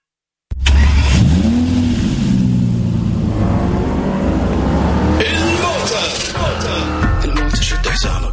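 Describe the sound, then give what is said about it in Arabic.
A car engine starts with a burst, then revs and accelerates, its roar climbing in pitch and staying loud and sustained, followed later by further sharp revving bursts. “دوس بنزينك الموتر كل جديدك الموتر ما يفوتك سيارات اشكال والوان سرعة راحة وامان”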